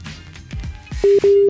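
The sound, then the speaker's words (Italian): A telephone rings with an incoming call, sounding as two loud, steady, mid-pitched ring bursts in quick succession after a stretch of low, quieter sounds. “Oh, sta chiamando Corey Taylor. Secondo me sta chiamando il fidanzato.”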